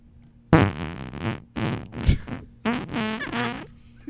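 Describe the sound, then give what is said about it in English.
Farts during diarrhea make a series of several sputtering, buzzy bursts of varying pitch and length, some quick and choppy, others drawn out. There are short pauses between them and no voices. “Do you know how hard it is to get farts around diarrhea?”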